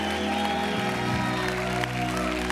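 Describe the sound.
Audience applause and crowd noise welcome a guest speaker to the stage at a church service, a dense continuous clatter of clapping over sustained tonal music, holding steady and loud throughout.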